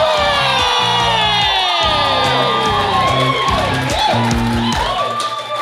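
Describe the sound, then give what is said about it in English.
A live audience at Hoxton Hall cheers loudly and continuously, a dense mix of whoops, shouts and high-pitched yells that stays at full volume for several seconds before easing slightly at the end. “coming at you live from Hoxton Hall, baby. Make some noise, Hoxton!”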